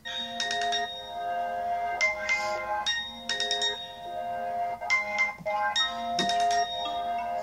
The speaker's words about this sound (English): let's say I wanted to set the ringtone.